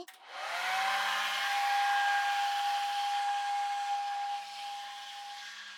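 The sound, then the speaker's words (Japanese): A hair dryer blows steadily while hair and scalp are dried and combed. It makes a loud, continuous rushing airflow with a thin, steady high whine on top, easing slightly toward the end. “乾かしながら、この櫛で髪の毛をすいていって、髪の毛も、そしてその下の頭皮も、まんべんなく乾かしちゃいます。”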